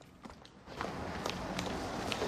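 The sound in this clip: Quick, faint footsteps of someone running out of a club after others, with a wash of background noise that grows louder.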